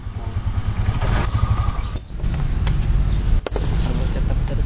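A three-wheeled motorcycle engine runs with a continuous, heavy low rumble and rough mechanical texture, dipping briefly about halfway through before resuming at a steady level.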